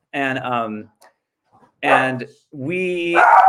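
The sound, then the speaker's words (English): A dog barks and yowls in three loud, drawn-out, tonal bursts, the last one the longest and rising into a strained cry. “That's my dog.”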